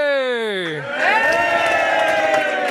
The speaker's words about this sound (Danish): Jeg synes, der bliver jublet godt igennem.